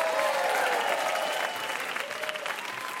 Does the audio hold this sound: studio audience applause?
yes